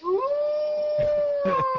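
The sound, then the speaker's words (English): A wolf howl sound effect, picked up from headphones set down on the studio machine during an ad: one long howl that rises at the start and then holds a steady pitch. “If you heard a wolf howling during our ad, it was because I put my headphones down on the machine.”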